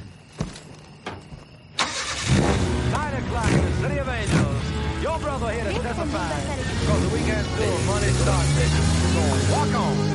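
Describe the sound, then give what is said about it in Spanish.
An MG sports car's engine starts as the car pulls out through an opening gate at a villa. A few clunks come first, then the engine catches sharply and runs, revving so that its note rises and falls repeatedly. “La verja de su parcela se abre y el coche sale.”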